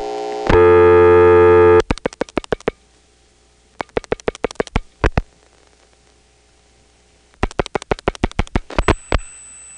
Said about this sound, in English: Let's drop the register sender and dial an 8.